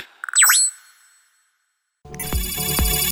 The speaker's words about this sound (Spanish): Llamada entrante.